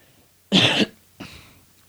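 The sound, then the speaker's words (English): A single sharp, loud cough from someone with a cough, followed moments later by a softer, shorter second cough, with quiet in between. “Sorry, guys, I have a cough.”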